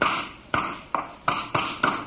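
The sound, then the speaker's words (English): Hammer blows driving nails, swung by someone gripping the hammer poorly. Six sharp knocks land in an uneven rhythm, each ringing briefly and then fading. “Is that the way you pound nails?”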